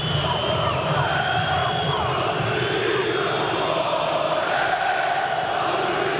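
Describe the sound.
Beşiktaş fans chant at Rhein-Neckar Arena in Sinsheim during a football match, forming a steady, loud, unbroken roar of voices with sustained tones running through it.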